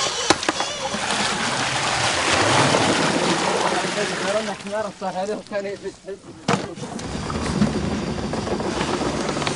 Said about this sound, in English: That's that creaking sound you're hearing. It's an old wooden pulley. There's one camel headed off across the next dune, and he's got a rope back to this pulley, and the water's coming up.